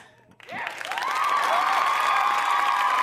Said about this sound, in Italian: Grandi applausi, e vorrei salutare con un applauso il nostro prossimo ospite